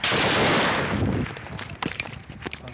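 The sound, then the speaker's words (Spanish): A car bomb explodes in Raqqa, Syria, in a single loud blast that rumbles and decays over about a second, followed by scattered sharp cracks and clattering debris. “Este es el momento en el que un vehículo bomba estalla en Raqqa, Siria.”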